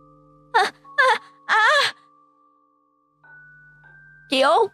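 A boy's loud wailing and crying comes in four short, wavering voiced cries, the third drawn out longest, with a pause before the last, over a faint steady hum.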